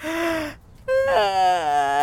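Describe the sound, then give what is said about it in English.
A person yawning, with a drawn-out voiced breath, a short pause, then a longer wavering vocal sound that trails off. “I don't know why I keep yawning. I'm not even tired.”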